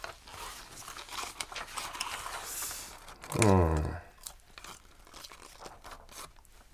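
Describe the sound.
Crisp crunching of someone eating crunchy fried potatoes, including hard crispy leftover bits, heard as steady crackly chewing throughout with a brief voiced murmur in the middle.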